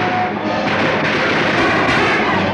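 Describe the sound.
Soldiers laying down covering gunfire: a dense, loud, continuous wall of battle noise broken by a few sharper cracks.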